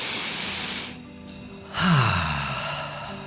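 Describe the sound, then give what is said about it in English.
A big, deep cleansing breath: a hissy drawn breath, a short pause, then a louder, long sighing exhale that starts with a brief falling voiced tone and trails off softly. “So, everybody just take a big, deep, cleansing breath. That sounds really weird, doesn't it? Kind of new agey. Just take a big, deep breath.”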